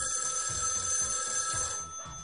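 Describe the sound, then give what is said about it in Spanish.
A telephone rings steadily with an incoming call to a radio station, a bright, continuous electronic ring that holds at an even level before easing slightly at the end. “De que tenemos una llamada.”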